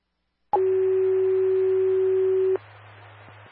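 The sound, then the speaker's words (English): A fire station alerting test tone sounds as a brief higher blip, then a single loud, steady mid-pitched tone of about two seconds. A low hum runs beneath it and lingers faintly once the tone stops. “these are test tones, please advise if station tones went off.”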